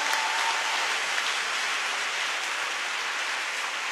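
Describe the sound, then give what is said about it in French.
A church audience applauds to acclaim the Lord, a dense and continuous rush of clapping that holds an even, fairly loud level throughout, with a hissing, rain-like texture. “Paix et joie, on peut acclamer encore le Seigneur.”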